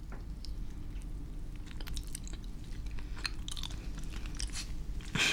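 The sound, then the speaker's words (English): Chewing of dango rice dumplings for ASMR: soft, sticky mouth sounds and scattered small clicks, faint over a steady background hiss, with no talk. “And they have decided to make an ASMR video. So now they're eating dango.”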